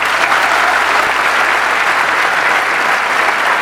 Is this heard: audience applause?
yes